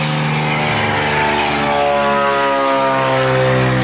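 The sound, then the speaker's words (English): An airplane flies by near an active runway, producing a loud, steady engine drone with strong humming tones that fills the whole clip. “here comes one of our planes we're talking about here. So as it flies by,”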